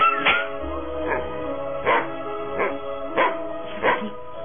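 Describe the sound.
A dirty stray dog in a Spanish-language radio drama barks repeatedly, sharp, evenly spaced barks that alternate between louder and softer, with a slightly muffled, band-limited tone.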